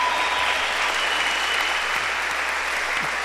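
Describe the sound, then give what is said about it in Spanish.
Congregation applauding during an evening church service, a dense, steady roar of many hands clapping at even loudness throughout. “Y le vamos a dar un aplauso más fuerte al Espíritu Santo que está aquí.”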